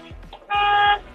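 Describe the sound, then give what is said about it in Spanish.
A truck horn honks from a tractor-trailer waiting in line to enter a port: a single loud, brassy blast of about half a second, with low engine rumble before and after. “A ver, toque el pito.”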